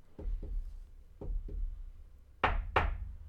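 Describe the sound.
Knocking on a tunnel wall: four dull, low thuds in two spaced pairs, then two louder, brighter and hollower knocks close together near the end.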